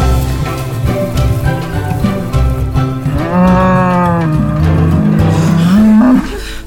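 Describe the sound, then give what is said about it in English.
A cow in labor moos loudly in long, drawn-out, strained calls with a rich harmonic tone and wavering pitch, sustained and heard alone. “She's making noises like moo, moo, moo. That is labor.”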